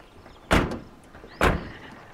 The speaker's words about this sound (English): The truck pulls up to the house and parks. Lee and Luke step out.